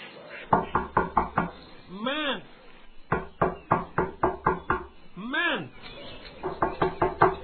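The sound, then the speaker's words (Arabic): Knocking on a door as a sound effect in an audio story, with three bursts of rapid, hollow raps separated by short pauses. “لم يتردد صديقه الفأر في طرق الباب، ففتح فرفور الباب”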